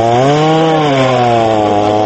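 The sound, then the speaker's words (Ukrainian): Chainsaws cut through lake ice to free trapped swans, giving a steady, loud, high buzzing engine drone that holds for the whole clip with only a slight waver in pitch. “Це місцеві єгері бензопилами розрізають лід, а потім лопатами скидають його глибше під воду.”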